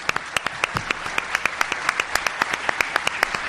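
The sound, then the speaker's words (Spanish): Audience applause for a musical trio, heard as distinct sharp claps in a fairly steady, quick rhythm, moderately faint and without talk. “Vamos a dar un aplauso”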